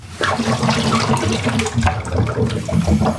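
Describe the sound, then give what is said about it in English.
Sterilizing fluid pours into a coffee machine's brewing dock, a steady gushing and splashing of liquid that holds at an even level for about three seconds. “Now I'm going to turn it the other way up so that my sterilizing fluid runs into that.”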